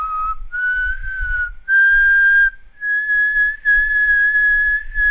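Eerie human whistling imitating a legendary ghost said to roam with open wounds, dragging a bag of bones. It is a slow whistled tune of a few long, clear notes that climb in pitch, heard alone over a faint low rumble.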